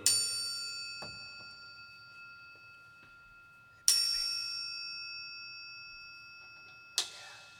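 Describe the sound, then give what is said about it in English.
A metal triangle rings out from three sharp strikes, each a bright, high, shimmering clang that decays slowly into a long sustained tone before the next hit. “That is the sound of a triangle.”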